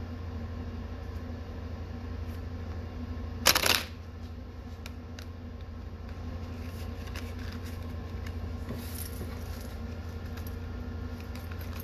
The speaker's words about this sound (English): so I'm going to shuffle my Thoth deck for a moment.